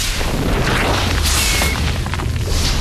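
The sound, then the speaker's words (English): A massive sci-fi energy gun blasting a crater into a ceiling: loud, dense booming roar and rumble that fills the whole clip without letting up, with crackling bursts layered over the low end. “fires the BFG up at the ceiling. A massive crater-like hole appears with singed edges.”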